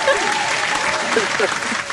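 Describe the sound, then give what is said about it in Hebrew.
A group applauds with dense, steady clapping that holds at an even level for about two seconds. “איזה סאונד יפה זה כפיים”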